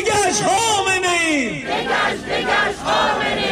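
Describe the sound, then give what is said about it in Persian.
Protesters outside the UN office in Geneva shout for democracy in Iran and against the execution of demonstrators: a loud crowd chanting in unison, voices rising and falling through repeated phrases. “این فریاد دموکراسی خواهی برای ایران در ژنو سوئیس مقابل دفتر سازمان ملل، اعتراض به اعدام معترضان در ایران.”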